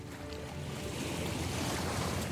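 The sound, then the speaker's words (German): Steady rush of wind and water on the Wannsee lake, where a few small sailboats and tourist excursion boats are out in a good breeze, an even, unbroken noise throughout. “Auf dem Wannsee segeln ein paar kleine Boote. Der Wind ist gut. Touristen schippern in Ausflugsbooten über den See.”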